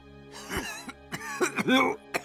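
A man coughs in agitation, a performed sequence of several harsh, strained bursts mixed with throaty, voiced rasps. The bursts come in uneven clusters separated by short gaps.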